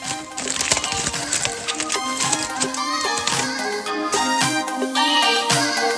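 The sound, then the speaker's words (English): Theme music plays on its own at steady loudness: bright sustained tones over a low bass line, punctuated by regular percussive hits throughout. “Run that theme music.”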